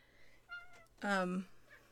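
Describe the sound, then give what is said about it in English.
A cat just outside a door meows once, loud and drawn out, after a fainter short call, against near silence. “Yep. Cat right here.”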